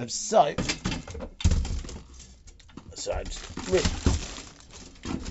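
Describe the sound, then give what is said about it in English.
Objects are shifted and knocked about while rearranging a cupboard holding an ironing board: scattered clunks, rustles and soft bumps come in uneven bursts, with a heavier thud partway through. “Rearranging my cupboard. Oh, fucking hell, almost got hit by the ironing board. Falling.”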